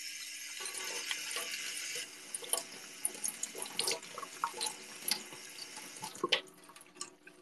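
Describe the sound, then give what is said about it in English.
Rocks are rinsed under tap water: a steady stream runs from a faucet at first, then gives way to irregular drips, splashes and trickles as the rocks are handled, all fairly quiet. “I'm actually going to rinse them really quick. Now, usually you're not supposed to use, like, tap water.”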